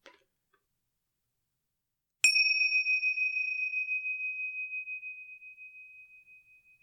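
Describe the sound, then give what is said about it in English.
A small meditation bell is struck once after a near-silent pause, giving a clear, bright, high tone. The ring pulses gently as it fades slowly for several seconds. “Now, I've got my little meditation bells here. Let's see how they sound. Let's give them a test out.”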